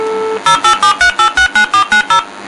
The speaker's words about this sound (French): je compose le numéro. Pour les mélomanes, vous pourrez reconnaître le numéro.